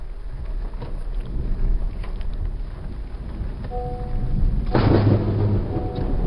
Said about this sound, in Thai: ซึ่งพอเลี้ยวออกมาถนนใหญ ่ฟ้าก็ผ่าลงมาที่หม้อแปลงเสาไฟข้างหน้ารถพอดีอะค่ะ